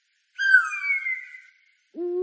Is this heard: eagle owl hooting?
yes